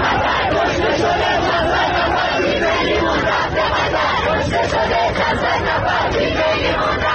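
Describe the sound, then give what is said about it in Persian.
A large crowd of Iranians in Qatar chants slogans against Khamenei during an Iran national team football match, a loud, dense, unbroken roar of massed voices throughout. “و ایرانیانی که در قطر حضور دارند و همزمان با بازی تیم ایران شعارهای مرگ بر خامنه ای سر دادند.”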